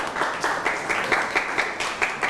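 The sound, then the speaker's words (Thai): An audience applauds a friend after a presentation, with a fairly faint, continuous patter of many hands clapping at a steady rate. “เอาละครับปรบมือให้กับเพื่อนหน่อยครับ”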